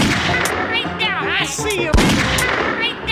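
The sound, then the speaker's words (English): Gunshots fire in a Grizzly Gulch video game, with one sharp, loud shot cracking out near the middle among busier bursts of game sound. “He got me. Shot me. Ain't lit. Oh, he shot me.”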